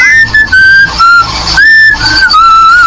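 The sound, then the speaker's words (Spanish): A voice imitates a teasing, mocking whistle: a loud, clear string of short and held whistled notes that waver slightly in pitch, running for about three seconds. “escuchó como alguien así que andaba así como chiflando, así como muy gustoso, va, como haciéndole burla”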